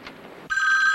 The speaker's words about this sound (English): phone rings